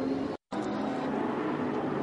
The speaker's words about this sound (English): You can just hear the hesitation in the throttle.